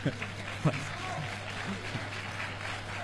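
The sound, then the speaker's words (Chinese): Warm audience applause at a Tianjin Chinese folk-art performance by a comedic duo, a steady soft clapping wash with men speaking over it, louder at the start. “首先感谢大家热情的掌声”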